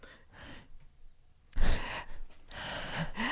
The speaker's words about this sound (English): Is this what happened when I was out of the room? You guys just breathed into the microphones.